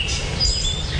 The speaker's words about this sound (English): Listen to the birds in the background.